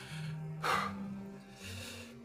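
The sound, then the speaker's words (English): Heavy breathing from someone who has just climbed a ladder out of a damaged mineshaft. A few faint, breathy inhales and exhales rise and fall with a soft gasp near the start. “The only sounds you hear now are your own heavy breaths,”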